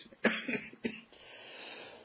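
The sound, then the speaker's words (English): A person with a recurring cough coughs twice, two short, sharp bursts close together, followed by low, steady background noise with no talk. “and as you can tell, I have the cough again.”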